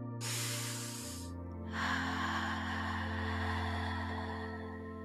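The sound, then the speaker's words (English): Slow guided breathing for relaxation, a long airy inhale through the nose followed by a longer, steady exhale through the mouth, soft and breathy over a quiet sustained musical drone. “We're going to take a nice inhale through the nose and exhale through the mouth.”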